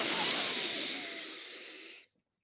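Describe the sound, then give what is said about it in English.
One long, deep breath drawn in during a guided breathing exercise: a loud airy hiss that fades slightly over about two seconds, then cuts off abruptly into silence. “Breathe in that powerful yellow sun chakra and solar.”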